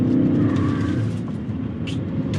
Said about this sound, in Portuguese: E aqui, ó, tô pondo no Sport DC fazendo aqui a curva, aí. É aqui que faz a diferença você ter um Sport DC ligado.